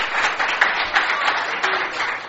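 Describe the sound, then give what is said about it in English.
A church audience applauds with steady hand claps during a service. The clapping forms a dense, even patter for about two seconds, with no talking over it. “Vamos a darle aplauso fuerte al Señor. Let's thank the Lord with a hand clap this morning.”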